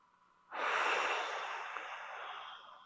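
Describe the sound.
A single long, airy breath drawn in begins abruptly after a quiet pause, then slowly tapers over a couple of seconds, heard alone.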